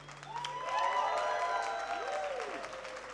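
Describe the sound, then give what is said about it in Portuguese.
Soft audience applause from a crowd, a low, even patter of clapping with a few voiced cheers rising and falling over it before the sound eases slightly toward the end. “Aplauso para usted, gente linda.”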